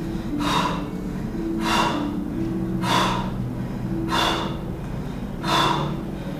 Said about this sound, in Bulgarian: Дълбоко вдишване, рязко издишване. Давай, дълбоко. Още 10 пъти.